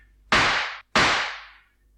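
Two sharp pistol shots in a duel, one fired upward, each a loud crack with a long fading tail, the second following quickly after the first.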